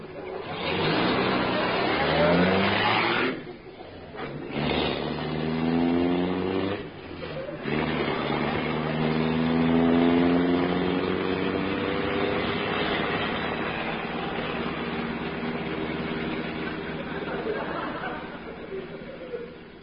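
A car engine revs as the car drives off, its muffled tone rising in a few surges and then settling into a steady drone that carries on to the end.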